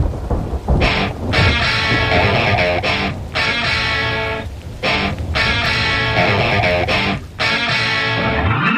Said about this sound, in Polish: Leżysz obok mnie, a tu spada nagły letni deszcz. Tu pierwsza kropla, tu druga kropla.